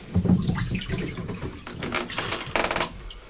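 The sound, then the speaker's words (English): Cold water runs from a tap into a bath, a steady rushing splash with a few sharper knocks and clatters mixed in, louder near the start and again toward the end. “I can put some more cold water in there if I want, can't I? Yes, take that out and put some more.”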